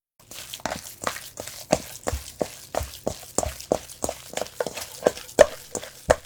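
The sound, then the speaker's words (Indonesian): Minced meat being mixed by hand with salt and pepper in a bowl, heard as many soft, wet squelching pushes in a steady, even rhythm, fairly quiet and with no talking. “Tempatkan daging cincang di dalam mangkuk, lalu tambahkan garam dan merica. Gunakan tangan untuk mengaduk-aduk daging dan bumbu sampai menjadi agak lengket.”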